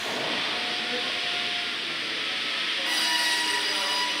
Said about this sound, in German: greift das Holz und über die Lichtschranken in der Maschine wird erkannt, wo es anfängt und die Maschine macht den Anschnitt.